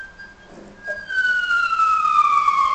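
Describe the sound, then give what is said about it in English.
A fire engine siren wails in after a quiet second, holding one loud, clear tone that slides steadily lower in pitch. “sounds like a fire engine.”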